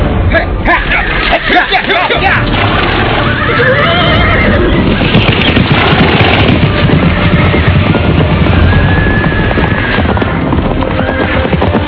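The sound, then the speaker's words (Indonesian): A brown horse neighing and its hooves clattering as its rider spurs it into a full gallop during a chase, loud and continuous, with a busy babble of voices mixed in. “Kembang Sore menggebrak kudanya”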